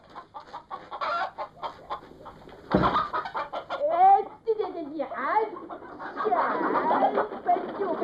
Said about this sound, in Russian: Оттуда вылетела курица.